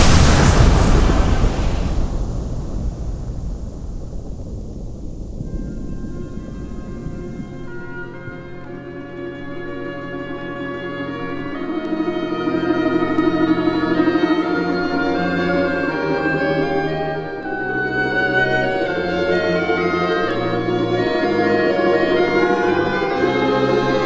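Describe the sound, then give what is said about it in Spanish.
A torpedo and missile blast in a submarine film scene, opening with a loud, sharp explosion that quickly decays into a long, low rumbling tail lasting over twenty seconds. “Capitán, han disparado un torpedo. Y dispare el misil 3.”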